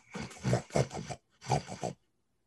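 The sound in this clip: A person imitates a boar grunting, making rough, throaty grunts in two clusters with a short break between them. Silence follows.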